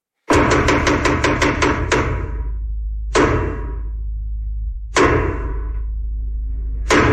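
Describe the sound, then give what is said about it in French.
Traditional theatre knocks announce the start of a play: a quick run of loud, ringing wooden thuds, then three slower, evenly spaced heavy knocks, each fading before the next, with no voices. “les 12 coups de théâtre ont sonné”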